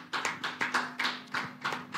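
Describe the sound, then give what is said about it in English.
Church audience clapping their hands during a worship service, a quiet, rhythmic run of many sharp claps on a steady beat. “You want to clap your hands for Jesus.”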